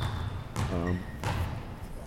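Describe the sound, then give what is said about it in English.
A basketball bounces twice, two dull thuds about a second apart, with a short stretch of voice between them. “I got my basketball, as you can hear it.”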